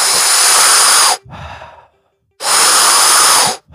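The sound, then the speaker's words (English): Big, deep breaths drawn through the mouth during a breathing exercise: two loud, rushing breaths of about a second each, with a softer, shorter breath between them and no talk. “And you upregulate your nervous system with the big, deep breaths. So it'll kind of sound like this.”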